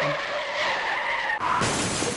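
A car's tires skid and squeal in a sound effect. The screech holds for over a second, then gives way to a harsher, noisier burst that continues to the end.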